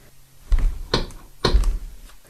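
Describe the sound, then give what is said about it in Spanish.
Knocking on a house door comes as a few dull, heavy thuds at uneven spacing. The blows are moderately loud with short quiet gaps between them and no voices. “escuchó que alguien tocaba la puerta de su casa.”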